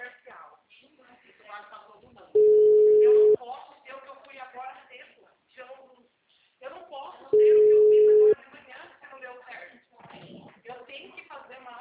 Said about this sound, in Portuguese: Tá chamando.